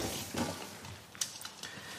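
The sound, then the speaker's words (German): Soft scraping and light clinking of a utensil stirring bacon into pasta in a home kitchen, quiet and continuous with a few brief sharper clicks. “Speck in die Pasta. Genau, ein Speck auf die Pasta drauf. Wo ist das hier, ne? So. so. Ein bisschen einrühren.”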